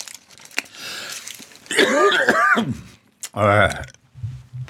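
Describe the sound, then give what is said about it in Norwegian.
Coughing and throat clearing on a live radio show: a few rough, raspy bursts, some with a strained voiced quality, separated by short quiet gaps. “Sånn er det når vi er direkte. Da kan hosten sette seg i halsen.”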